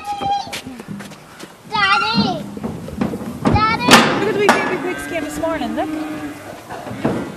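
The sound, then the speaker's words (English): Cattle mooing on a farm: several drawn-out, wavering moos and bellows with rich harmonics, while a voice talks over them throughout. “although you can hear the cattle in the background”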